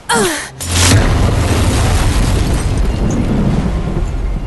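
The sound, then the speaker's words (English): A magical crystal slab explodes in a sudden blast that swells into a loud, sustained roaring rumble lasting several seconds, with a brief dip just after the onset. “The hierogram explodes in a mass of color and light.”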